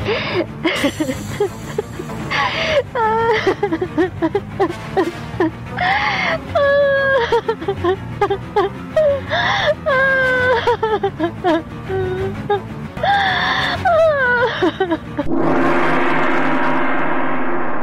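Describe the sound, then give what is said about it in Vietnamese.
A woman sobbing and wailing in repeated bouts, with wavering, rising and falling moans and choked breaths, loud and continuous, ending in a burst of harsh breathy hiss. “Người Hinh bỗng nhũn ra, hai chân từ từ khuỵu xuống. Cô gục đầu khóc nức nở.”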